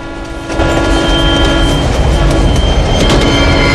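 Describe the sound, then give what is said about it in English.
A train entering a low tunnel: a brief lighter rumble gives way to a sudden swell into a loud, dense, sustained roar that holds steady to the end. “He looks ahead. The train is entering a low tunnel.”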